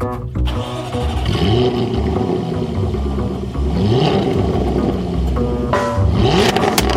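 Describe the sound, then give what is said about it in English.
Engine of a 2013 Jaguar F-Type convertible running loud and continuous, its pitch climbing in a few revving surges as the car pulls away and drives. “So we're going to go ahead and start up the 2013 Jaguar F-Type convertible.”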